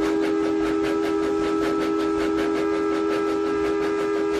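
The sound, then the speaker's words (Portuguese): A lighted train approaching from the opposite direction rumbles past with a steady, rapid rhythmic clatter and a sustained tone held throughout. “E apitou, vindo em sentido inverso, um outro trem iluminado.”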